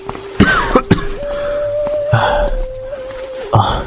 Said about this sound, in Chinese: 梅长苏就用衣袖掩口咳得弓下了身子